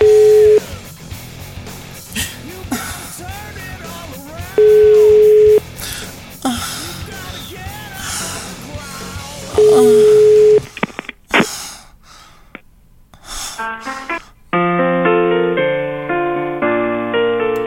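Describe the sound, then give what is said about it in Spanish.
A phone call rings out and is diverted to voicemail: a ringback tone sounds three times over noisy background chatter, then clicks and short bursts follow before a steady electronic multi-tone signal holds to the end. “Desvió la llamada, desvió la llamada.”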